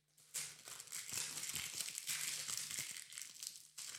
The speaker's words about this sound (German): Du bist immer noch am Auspacken, du weißt doch noch nicht, was drin ist. Jetzt rühr das Papier fort.